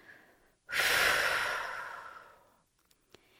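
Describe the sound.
A long, forceful exhale releases a held deep breath during a breathing exercise for stress relief, a loud breathy rush that slowly fades away, followed by a few faint small clicks.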